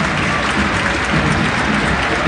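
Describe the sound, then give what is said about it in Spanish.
A football stadium crowd applauds with a continuous, dense wash of clapping that holds at an even, loud level from start to finish. “Aplauso de la gente.”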